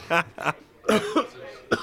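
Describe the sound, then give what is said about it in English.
A few harsh, partly voiced coughs in quick succession, with short pauses between them. The bursts are loud and close together, ending with one last short cough. “stupid cough. You've got a bad cough as well.”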